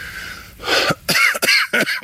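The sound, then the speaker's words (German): A few harsh coughs, evenly spaced, from a person with a cold. They come in short bursts after a quiet start, with no talk. “es fängt auch noch der Husten an. Ich habe mich verkühlt.”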